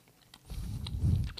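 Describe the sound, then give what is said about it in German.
Chewing on a bite of homemade lemony rice Easter cake, soft low mashing and faint crunching mouth sounds that grow louder over about a second, with no talking. “du bist schon wieder am Essen”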